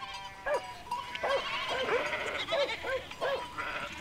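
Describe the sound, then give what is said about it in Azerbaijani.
A flock of sheep and lambs bleats beside water, with many overlapping, wavering bleats rising one after another over a steady, continuous background wash. “Bir sürü qoyunquzu suya yaxınlaşdılar. Ağızların suya uzaldıb mə mə bə bə səsi dərəni bürüdü.”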